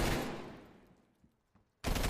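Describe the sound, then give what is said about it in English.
Video game gunfire as a player shoots at a box: a loud burst of shots that fades away into near quiet, then another abrupt loud burst near the end. “I'm shooting at a box.”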